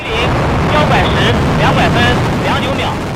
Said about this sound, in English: liftoff, a world first as China launches a probe to collect samples from the far side of the moon. An uncrewed rocket blasted off on Friday afternoon